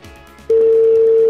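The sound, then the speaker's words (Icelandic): A telephone line tone sounds as a call is placed to Akranes: after a faint, low murmur, a steady mid-pitched tone starts abruptly and holds loud and unbroken to the end. “ég ætla að hringja í, já, upp á Skaga, upp á Flóritaskagan.”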